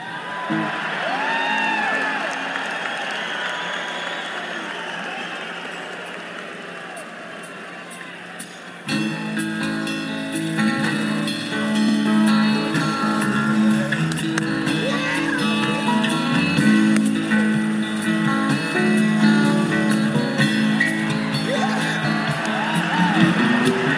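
Live band concert from March 20, 1986: a crowd whoops and cheers for about nine seconds, then the band launches into a song, with cheering continuing under the music.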